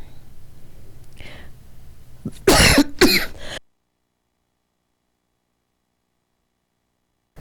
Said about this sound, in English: and then I start to cough. So please excuse me.